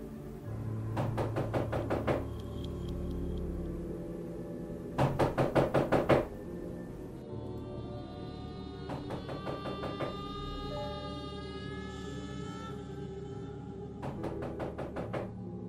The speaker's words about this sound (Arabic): باب الأوضة خبط